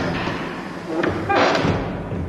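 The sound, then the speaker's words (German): A confession booth door swings open with a soft thump, a short dull knock followed by a slightly louder, broader burst of wooden movement. “Ich entlasse dich jetzt hier aus dem Beichtstuhl. Guck mal, die Tür geht wieder auf.”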